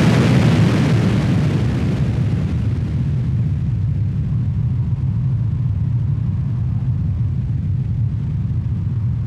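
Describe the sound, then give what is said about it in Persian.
A loud explosion as a burning object falls from the sky and strikes the ground: a broad, heavy blast that turns into a long, deep rumble, slowly losing its sharper edge over several seconds. “بعدم خورد به زمین و یه صدای انفجار بلند اومد.”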